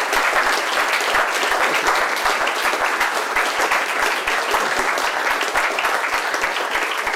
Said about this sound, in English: I'd like to ask the audience to thank Alan again.